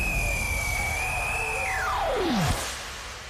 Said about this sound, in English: For your safety, please ensure that your seat belts are fastened at all times. Flight 005 is cleared for takeoff.